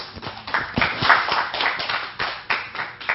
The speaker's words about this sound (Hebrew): קבלו אותו, איפה מחיאות כפיים?